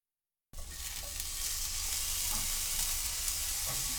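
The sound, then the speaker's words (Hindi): Shimeji mushrooms fry in a pan, spread out, salted and cooked uncovered on low heat while being turned, giving a steady, even sizzle and crackle that starts abruptly and holds at a constant level. “शिमेजी खुम्बियों को frying pan में फैलाकर उन पर थोड़ा नमक छिड़क दें। ढके बगैर धीमी आंच पर पकाएं और इस दौरान उन्हें उलट पुलट करते रहें।”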